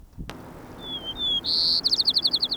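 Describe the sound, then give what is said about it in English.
A white-crowned sparrow sings a thin, high whistle, then a louder sustained note, and ends in a rapid trill of about ten clipped notes after a faint click at the start. “White Crown Sparrow A.”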